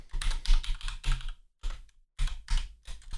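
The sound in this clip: Rapid clicking of keys as someone types a message on a computer keyboard: a long run of typing, then several shorter bursts separated by brief silent pauses, with no talk.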